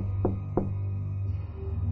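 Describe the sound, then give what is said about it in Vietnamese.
Two sharp knocks on a toilet door, close together in quick succession, over a steady low hum. “bỗng dưng tôi nghe ở ngoài cửa toilet có tiếng gõ cửa”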